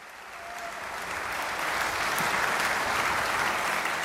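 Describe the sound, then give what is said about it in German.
Audience applause after a Mozart and Haydn concert at the Menuhin Festival Gstaad swells from a moderate patter into loud, sustained clapping. “Et j'avoue que si j'étais dans le public, je n'arrêterais pas d'applaudir avant d'avoir obtenu un bis. On va voir s'ils l'obtiennent.”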